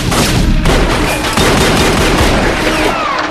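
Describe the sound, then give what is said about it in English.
Gunfire from two guns fills the scene with loud, dense blasts that blur into a continuous crackling roar, broken by a few sharper bursts. “Nana fires two guns at Varric.”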